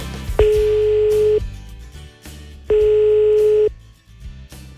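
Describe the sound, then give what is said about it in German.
Telephone ringing tone on a line as a call is placed, two long, steady mid-pitched tones about a second each, separated by a short silence, with low sounds underneath. “Und ich werde jetzt in Heilbronn anrufen bei Jessica, wenn sie da ist.”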